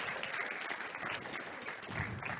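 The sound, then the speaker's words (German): An audience at a German church gathering applauds, giving a dense, steady patter of clapping throughout. “Ein Applaus für Thomas.”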